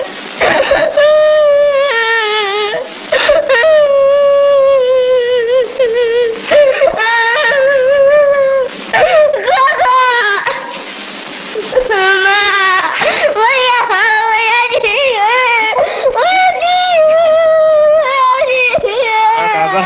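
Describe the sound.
A young boy cries loudly in long, sobbing wails that continue through the whole clip, broken only by brief catches of breath between bursts.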